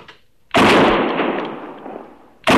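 A rifle shot fired at an antelope: a sharp, loud blast with a long, rough decay, followed about two seconds later by a second sudden loud burst.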